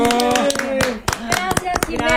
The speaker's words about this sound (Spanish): Pues aplausos para nuestra Simichu. ¡Bravo!